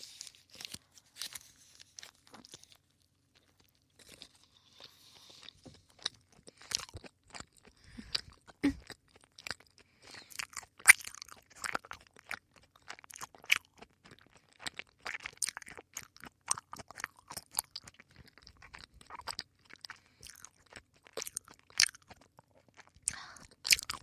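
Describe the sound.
Chewing on Oreo milk tea with tapioca pearls makes many soft, irregular crunches and moist chewing noises, faint and continuous, with no talk over them.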